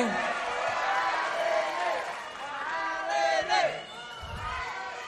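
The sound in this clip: Studio audience supporters cheer and shout at a singing competition's final showcase, a loud, continuous roar of voices with a few sharper whoops rising out of it.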